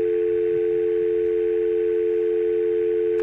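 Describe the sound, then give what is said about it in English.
A telephone dial tone sounds as a steady, unbroken, moderately loud note, with a brief change of tone at the very end as a number is dialed. “I'm still dialing. It's supposed to be on the phone.”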